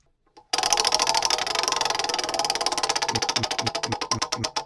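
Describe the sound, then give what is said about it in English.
A prize wheel spinning, giving a fast run of sharp ratcheting ticks that gradually slow and spread apart into distinct loud clicks toward the end. “Spin that wheel!”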